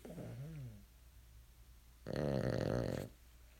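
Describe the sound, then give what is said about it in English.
A dog snoring: a faint, wavering snore is followed after a pause by a louder, buzzy snore lasting about a second. “You can hear my dog snoring in the background.”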